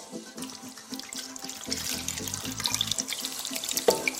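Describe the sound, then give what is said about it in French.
Bean cooking broth is poured over meat and beans in a pot for a stew. The stream makes a steady splashing gurgle that grows fuller and louder as the liquid rises. “Je vais ensuite rajouter le bouillon de mes haricots pour arriver à hauteur.”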